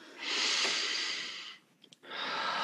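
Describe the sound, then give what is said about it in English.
A deep breath drawn in and let out: a long, airy inhale lasting over a second, a brief quiet pause with a couple of small catches, then a steady breathy exhale. “So let's take a deep breath in and out.”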